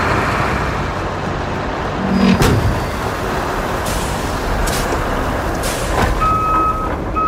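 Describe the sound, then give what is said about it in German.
Steady heavy-machinery engine drone from a loading crane heaving a heavy concrete slab onto a trailer in a truck work-simulation video game, with a thump partway through and a beeping tone near the end. “So klingt es, wenn mein Ladekran eine tonnenschwere Betonplatte auf einen Anhänger wuchtet.”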